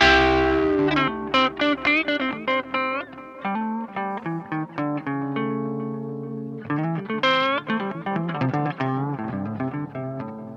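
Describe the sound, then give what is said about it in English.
An electric guitar played through a Joyo Jam Buddy, a combined pedal and amp, with a distorted, effects-laden tone. A melodic phrase of many picked notes and sustained pitches, a brief lull, then a brighter run of higher notes. “a Joyo Jam Buddy that you just heard, a great pedal and amp rolled into one.”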